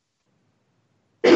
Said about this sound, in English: I was just coughing.